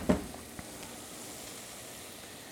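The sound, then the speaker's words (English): Vegetables sizzle as they cook in a pan, making a faint, steady frying hiss. A brief clatter comes at the start, then a small tick shortly after. “Vegetables are getting nice and soft, starting to take on just a little bit of color. We're going to let them go for a little bit longer.”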